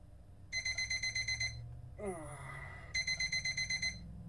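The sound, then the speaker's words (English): An alarm clock rings with two bursts of rapid, high electronic beeps, separated by a pause that contains a brief noise. “I find my way out from under the blankets and search for the alarm clock with my hands.”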